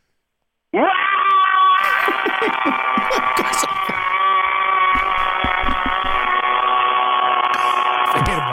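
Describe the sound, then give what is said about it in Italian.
A long, loud scream imitating a rock musician's signature yell. It is one raw, strained, harmonic cry held unbroken for nearly eight seconds, with a few crackles along the way. “Salutami a modo tuo, col tuo classico urlo alla Richard Benson.”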